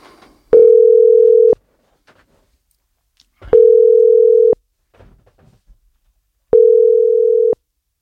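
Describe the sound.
Ringback tone while calling a football club's sports director: three steady, mid-pitched tones, each about a second long and separated by roughly two-second silences, heard alone with no voices.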